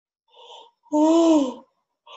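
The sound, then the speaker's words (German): A long voiced yawn swells loud and drawn out, its pitch rising and then falling, with a softer breathy exhale before it and another faint breath starting at the end. “Oh, ich muss immer noch ganz viel gähnen.”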